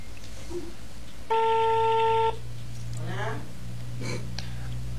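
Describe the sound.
A steady electronic telephone tone lasting about a second as a call is being placed privately, sounding alone over low hum, with brief faint voices before and after it.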